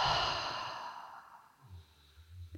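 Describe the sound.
A slow, breathy exhale during a guided breathing meditation, loud at first and fading over about a second and a half, followed by a faint low hum.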